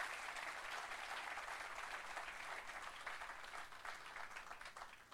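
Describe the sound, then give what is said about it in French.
A church audience applauding in praise during a worship service. The clapping is dense and steady, holding throughout at a faint level with no voices over it. “Est-ce qu'on peut acclamer Jésus encore, frère et soeur”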